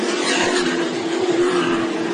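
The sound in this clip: Race cars roaring during the Lucas Oil 150. The engines make a loud, continuous high-revving drone that holds steady across the whole stretch.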